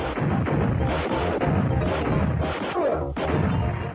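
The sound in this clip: Explosions and gunfire in a side-scrolling video game set in crime-ridden cities form a loud, dense, unbroken barrage of booms and shots.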